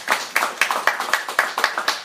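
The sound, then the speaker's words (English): Applause at the end of a live show in Baltimore: steady, rhythmic clapping of sharp, evenly spaced claps, about four per second, with no voices. “Now, can we get a round of applause?”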